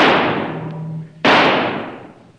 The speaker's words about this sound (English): All right, Kiva just shot an antelope.